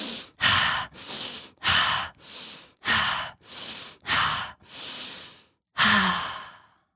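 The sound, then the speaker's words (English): Deep breaths are taken in slow, steady succession, each inhale and exhale a loud, airy rush of breath in an even rhythm, with no talking. “Now breathe. And then I take 5 deep breaths.”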